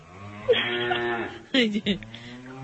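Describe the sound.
A human voice imitates a cow's moo: one long, drawn-out low lowing tone, followed by a couple of shorter voiced bursts.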